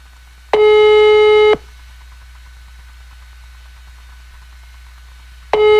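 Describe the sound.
A telephone line gives its ringback tone during a call: a steady buzzing tone lasting about a second, then a long silent gap over faint line hiss, then the same tone starting again.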